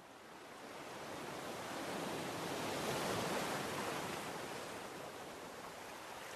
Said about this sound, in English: Feel the relief Paul felt as his weariness washes away with each wave lapping his legs